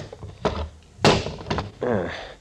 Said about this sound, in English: Here's the iron box, all right. Mm-hmm. It will lift right out,